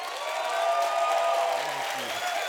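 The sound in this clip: An audience at a church service applauds and cheers to welcome a visiting pastor. The clapping is a steady, dense wash that holds at an even level throughout, with some voices mixed in.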